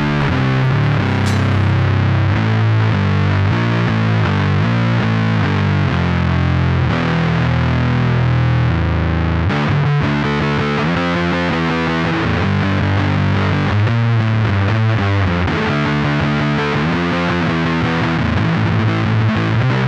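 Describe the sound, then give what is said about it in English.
Electric guitar runs through a Red Witch Fuzz God pedal, a high-gain Fuzz Face-style fuzz with many switches. It plays thick, saturated, buzzing chords and riffs, loud and unbroken throughout. “So that's the Red Witch, right? That's the Red Witch Fuzz God. So that is it's got more gain on tap, but it is more or less a fuzz face with fancy switches.”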